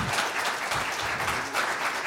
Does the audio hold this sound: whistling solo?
no